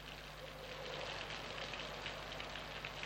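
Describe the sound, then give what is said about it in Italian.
Rain beats on a lonely house as a faint, steady hiss of drops that holds an even level throughout, with no voices. “Segregata nella sua casa solitaria, perennemente battuta dalla pioggia, la signora Alving finalmente osa sperare in un'impossibile schiarita.”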